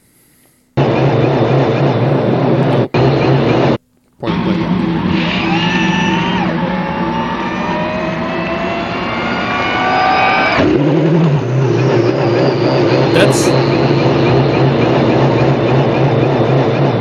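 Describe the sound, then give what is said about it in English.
A Porsche IMSA GTP hybrid race car engine at a homologation test, switching from hybrid to combustion power. The loud, continuous engine note has several harmonics sweeping upward in pitch midway through, then settles into a rougher steady drone after a brief dropout early on. “GTP, you want to hear a Porsche? You can hear a Porsche.”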